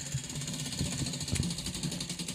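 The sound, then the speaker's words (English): A numbered game wheel spins during a drinking game, giving a fast, steady rattle of clicking that runs throughout at a fairly low level. “spinning the wheel.”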